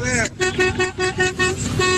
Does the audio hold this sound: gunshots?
no